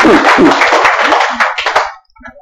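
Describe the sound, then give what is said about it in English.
Clapping from a church audience giving a clap offering: a dense, steady burst of many hands for about two seconds, then it cuts off abruptly and leaves only a few faint, scattered sounds. “Give Jesus a clap offering. Hallelujah.”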